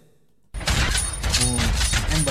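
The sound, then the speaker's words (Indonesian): A gunshot sound effect plays from a new audio mixer. After a brief quiet moment, dense, loud gunfire bursts in abruptly and keeps crackling without a break. “Efek-efek tembak. Efek tembak.”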